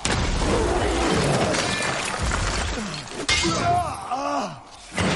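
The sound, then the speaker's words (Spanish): Ice breaks as someone leaps out through a frozen surface during a sword fight. A sharp, crashing burst of cracking rises partway through a continuous loud, dense din, with groaning tones after it. “Clava su espada en el pie de Thorin y sale de un salto rompiendo el hielo”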